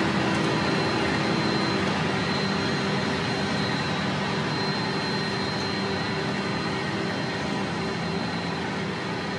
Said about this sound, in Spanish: fíjense, un avión de esas dimensiones volando casi a ras, casi a ras de los árboles, de los cerros